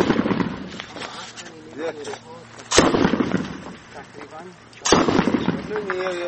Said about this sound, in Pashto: وسلوالو دیوال وهلی دی او هره شیبه د عمومي سړک پر امنیتي پوسته د ښکاري ټوپک ډزې کوي.